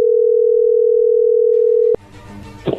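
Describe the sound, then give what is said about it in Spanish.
A telephone dial tone hums loudly at one steady pitch for about two seconds, then cuts off abruptly into faint line noise and a few soft clicks. “ahí se está marcando”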